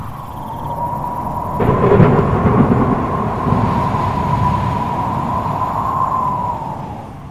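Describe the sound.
Thunder in a thunderstorm, a heavy low rumble that swells abruptly and keeps rolling on steadily. A sustained high tone is held over it from start to finish.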